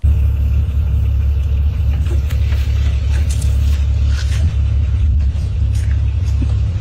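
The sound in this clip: A car drives along a country road, its engine and tyres making a steady, loud, low rumble throughout with no talk.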